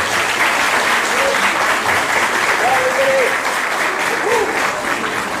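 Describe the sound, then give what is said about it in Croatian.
Audience applause at an evening cultural event, a dense, steady clatter of many hands clapping at even loudness throughout, with faint voices mixed in underneath. “molim jedan aplauz za Igora”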